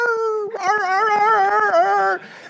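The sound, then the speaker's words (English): A dog vocalizing at night at neighbors outside, a sustained, wavering whining howl with a steady tone, fairly loud, that cuts off abruptly near the end. “my neighbors like to come out at like 2-3 in the morning. You're like, shut up out there. You're making my dog bark.”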